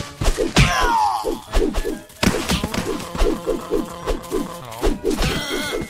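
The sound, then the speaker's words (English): Punching impacts in a video game land as a rapid series of dull thuds and whacks, many blows in an uneven rhythm with short pauses, loud throughout. “I think I punched another cheetah. Not sure what I just punched there.”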